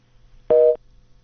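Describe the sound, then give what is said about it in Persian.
Telephone busy tone after a caller's line disconnects: one short, steady mid-pitched beep lasting about a quarter second, alone over a faint low hum. “تماس شنونده ما قطع شد.”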